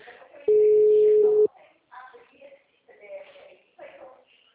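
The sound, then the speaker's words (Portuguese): A single long, steady telephone tone sounds while a call is being placed, followed by short bursts of people talking. “Tô chamando, cara. Não, mas é uma outra ligação eu tô fazendo.”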